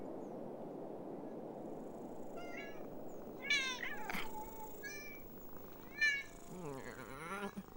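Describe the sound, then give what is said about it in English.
Several cats meowing together, a run of short, bright meows and a drawn-out wavering yowl rising over a steady low background hiss. “We're about to witness one of their rituals. Rituals? The feline anthem!”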